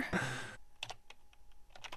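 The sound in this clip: Keys tapped on a computer keyboard while a name and birth date are typed in, a series of light, uneven clicks following a brief louder burst of noise at the start.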